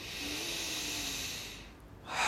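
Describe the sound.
A long, deep inhale through the nose makes a soft, steady airy hiss lasting well over a second. It fades to a brief pause, then another breath sound begins.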